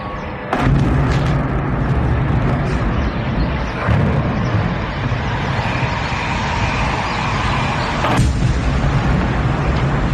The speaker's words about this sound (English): That's the sound of Ukrainian drones hitting their targets and exploding just outside St. Petersburg this morning.